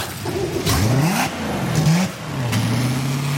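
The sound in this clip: A boat's sterndrive engine runs during a hot-water engine flush. It revs up in two rising surges, then settles into a steady, lower running note, loud throughout with a faint clatter.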